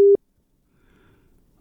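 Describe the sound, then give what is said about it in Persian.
A single short, loud telephone busy-tone beep sounds after a caller's line drops, followed by near silence with faint low rustling. “تماس شنونده عزیز با ما قطع شد”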